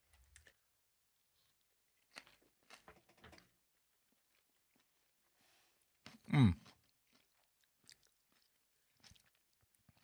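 Faint chewing and biting of olives with anchovies: scattered soft crunches and wet clicks, with one louder burst partway through.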